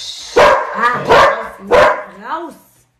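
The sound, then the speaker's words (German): A pet dog barks indoors, three loud, sharp barks spaced at a fairly even rhythm, followed by a softer, shorter yelp with a wavering pitch. “Das ist mein Hund.”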